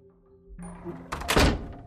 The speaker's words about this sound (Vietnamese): Theo ngay sau đó là tiếng đóng sầm cửa lại.